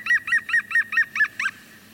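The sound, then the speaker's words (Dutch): Laughing call of a green woodpecker: seven sharp, ringing notes in a quick, evenly spaced series, with the last note a little lower in pitch. “lach van de groene specht kan je niet ontgaan. Ja, die groene specht, als je die hoort, dan heb je echt een mooie dag.”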